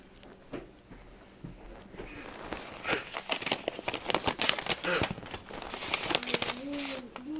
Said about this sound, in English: I'm telling you, this envelope is too small. I said fold it up in threes. That's three. I don't think I can fold it up again.